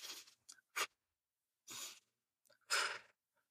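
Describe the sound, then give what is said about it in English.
Semi-rapid, continual diaphragmatic breathing demonstrated as a breathwork technique: several short, airy breath bursts follow one another with brief gaps, some sharper and some longer, quiet and alone, in a quick uneven rhythm. “we may even be doing something that's very similar to diaphragmatic breathing, but it's continual. So, you know, for an example, if I were to just do a few breaths of that,”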